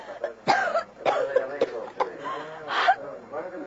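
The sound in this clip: A woman coughing in a radio drama: a series of short, harsh coughs mixed with voiced gasps and throaty sounds, moderately loud and uneven in rhythm.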